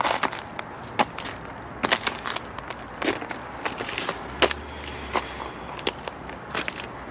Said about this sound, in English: My hands are starting to get cold, so I am going to find a warmer place. Hopefully I can make it back up this hill without slipping.